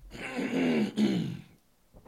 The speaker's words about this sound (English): Let me clear my throat for a sec.